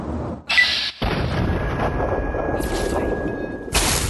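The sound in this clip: A missile launcher explosion erupts in a video game firefight near sandbag cover. Loud, dense rumbling booms cut in abruptly, drop out for an instant, then continue as sustained roaring noise with a steady thin tone running through much of it.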